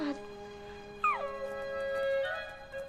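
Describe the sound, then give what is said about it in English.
A Great Dane howls by a window in a hotel bedroom. The cry is sustained and whining, holding steady tones, with a sudden higher, wavering rise about midway through. “They run over to the Great Dane, who's still howling and barking by the window.”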